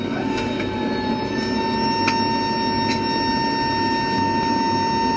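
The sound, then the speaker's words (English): Aircraft flaps being set after engine start give a loud, steady whirring hum with a constant high whine on top, and a few faint ticking clicks. “Generally, after start, the flaps are set, which then causes this loud whirring noise.”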